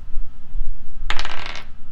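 A twenty-sided die is rolled for an attack in a tabletop role-playing game, giving one short, bright clattering rattle that lasts about half a second and then stops, loud against a quiet background.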